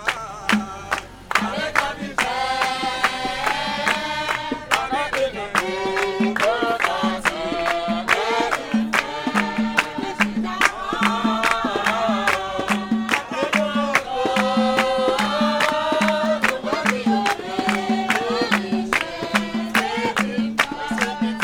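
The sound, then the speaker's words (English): Many people sing together at an outdoor service in front of a damaged Apostolic church in downtown Port-au-Prince, voices rising in a chant-like melody over steady, rhythmic handclaps that continue throughout. “That's the sound of people singing outside the Apostolic Church of Jesus Christ in downtown Port-au-Prince.”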